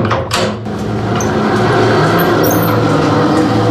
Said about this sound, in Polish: agregat filtrowentylacyjny z ręczną korbą, której nie mogłem się oprzeć.